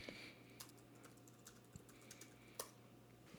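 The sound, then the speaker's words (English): Faint typing on a computer keyboard: a handful of sparse, soft keystroke clicks spaced irregularly over a quiet background hum. “I can't type. I'm so out of it.”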